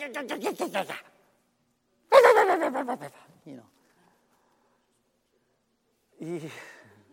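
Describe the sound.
A human voice imitates a little yappy dog in three bursts of quick, high, clipped yaps and yelps with short silences between them.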